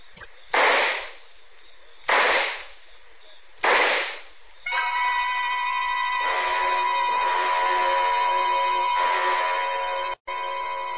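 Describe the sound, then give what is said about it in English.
Three sharp bangs from a handgun ring out at even intervals, each trailing off in a short decay. A sustained, steady tonal chord follows and carries on to the end. “took out the gun, aimed very carefully at a spot just in the center of his left shoulder blade, and pulled the trigger 4 times.”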